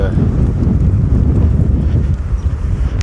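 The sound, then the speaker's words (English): Wind buffets a microphone fitted with a wind sock, making a loud, continuous low roar and rumble that fills the whole stretch without a break. “if the wind sock on this microphone works today, because that wind is just whistling.”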